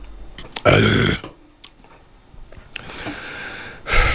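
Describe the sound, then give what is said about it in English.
A loud, low belch lasting about half a second, followed by quieter breathy noises and another rough burst rising at the very end. “Burp.”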